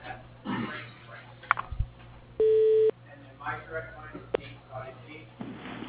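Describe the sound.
Single steady telephone tone lasting about half a second as a call is transferred to a voicemail line, set among soft clicks, line noise and faint murmuring voices.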